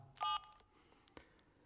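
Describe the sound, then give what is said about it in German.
A telephone being dialed to call the police: one short, loud touch-tone beep, then a few faint clicks of handling in quiet surroundings. “Ich werde die Polizei anrufen und ankündigen, dass Sie morgen ins Präsidium kommen.”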